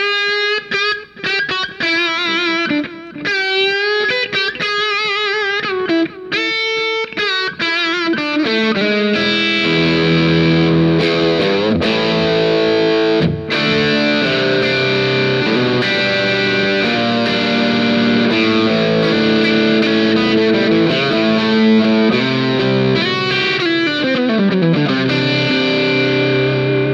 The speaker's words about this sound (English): Let's hear those pickups. All right. Well, here's the bridge. And they're underwound, you know, just PAFE.